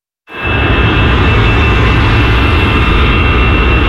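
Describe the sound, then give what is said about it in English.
Loud, steady jet engine roar from airplanes taking off at Paris's biggest airport, starting abruptly and holding as a dense, continuous rumble with a faint high whine, with no voices. “You'd be forgiven at Paris's biggest airport for not hearing anything over the sound of hundreds of flights taking off”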